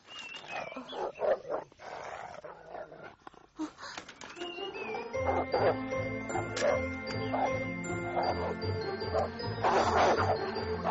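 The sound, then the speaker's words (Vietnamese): Dogs bark in a busy scene: short, sharp barks come in bursts over a cluttered mix of jingling and other steady sounds that grows denser in the second half. “Ông cẩn thận, ông có chừng chó cắn. Thôi chạy mau.”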